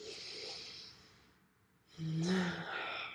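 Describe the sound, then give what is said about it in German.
A deep breath in and out, heard as a soft airy rush, a short quiet pause, then a louder sighing breath carrying a faint hum of voice. “leg deine Hand auf dein Herz und atme mit mir gemeinsam einmal tief ein und aus.”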